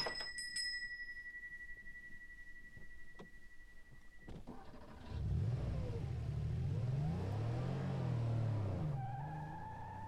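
A car drives off: after a quiet stretch and a sharp clunk, the engine rumbles up loud and revs repeatedly, its pitch rising and falling as it pulls away.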